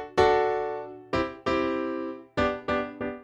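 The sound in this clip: A piano moves through D, C and G chords with six struck chords in an uneven rhythm. Each chord rings and fades before the next, and the piano plays alone.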